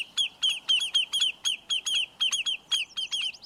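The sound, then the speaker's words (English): Lesser yellowlegs, a shorebird, gives rapid alarm calls while defending its nest: a steady series of sharp, high, clipped notes repeated roughly three times a second, loud and insistent against a quiet background. “when the shorebirds called lesser yellowlegs sense a threat to their nest, they'll put up an unforgettable racket to drive the danger away.”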